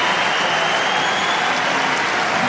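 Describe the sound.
Tennis crowd applauding a winning drive volley, a dense, loud, continuous wash of clapping that stays level throughout without any talk.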